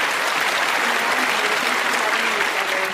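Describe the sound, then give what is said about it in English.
Dense applause for a guest being welcomed onto a show over Zoom, a steady, even wash of many hands clapping that holds at full strength from start to finish. “Let's give her a big hand.”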